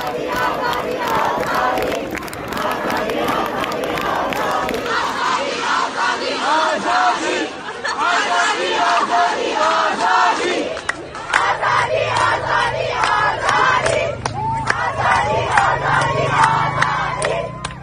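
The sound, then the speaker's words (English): Iranian protesters chant for freedom in a large crowd, with many voices shouting a repeated slogan in a steady, forceful rhythm. The chant stays loud and unbroken throughout. “As they chant in all their acts of protest, they want freedom, freedom, freedom.”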